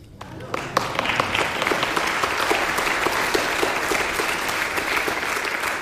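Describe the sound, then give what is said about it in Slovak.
Audience applause at a radio concert with choir and soloists: dense clapping swells in at the start and holds steady, with many sharp individual claps standing out from the wash. “Myslím si, že dnes nás múzy naozaj hladkajú a my tlieskame, pretože je to krásny koncert.”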